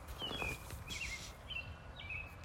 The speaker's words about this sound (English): I'm like outside right now and it's like the birds are chirping and I'm like getting distracted because I think I'm seeing a blue jay right now.